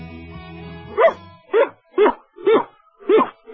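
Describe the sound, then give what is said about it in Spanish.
A woman with a cold imitates a dog barking with her voice. A brief voiced sound comes first, then a series of about five short, evenly spaced woofs. “¿Tú sabes imitar perros”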